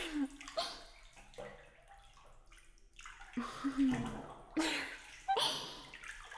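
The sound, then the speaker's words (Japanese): Hot bath water sloshing and overflowing from a home tub as two people settle in, coming as several soft bursts of splashing and gurgling with quieter lapping water between them. “二人で入るとお湯がいっぱい溢れてちょっともったいないですが。”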